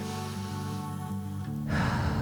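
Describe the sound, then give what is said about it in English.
A deep inhale and exhale in a guided prayer session: a long, airy breath grows into a louder, rushing exhale near the end, heard over a steady, sustained musical drone. “take a deep breath, close your eyes, take your biggest inhale and exhale that you've done all day.”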